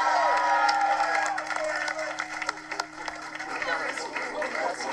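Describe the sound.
Cheering from a studio audience: crowd noise with whoops and yells, moderately loud, with voices talking over it throughout.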